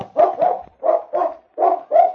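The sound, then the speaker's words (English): A dog barks after finding a scent near the back door of a cafe: six loud, sharp barks come in three quick pairs with short pauses between them, alone and with no talk. “sniffing the ground near the back door of the cafe, he stopped and barked to indicate he had found the scent.”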